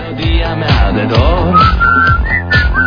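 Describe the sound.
A person whistles at three in the morning. Bright, high whistled tones sound over busy, lower background sound throughout.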